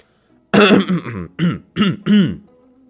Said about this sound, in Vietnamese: Miêu Nghị bỗng nhiên đằng hắng một tiếng nói